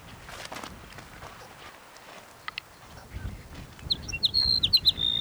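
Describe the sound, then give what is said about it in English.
A sage sparrow sings a short, high, tinkling phrase of quick notes near the end, after several seconds of soft rustling and low rumbling background noise. “Sage sparrow number 5.”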